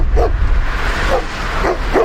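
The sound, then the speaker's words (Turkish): Dogs bark and yelp in a street fight after one dog attacks another being walked, in Kapaklı, Tekirdağ. A few sharp, loud barks break through a steady noisy background. “Köpekler birbirine girdi, paniğe yol açtı.”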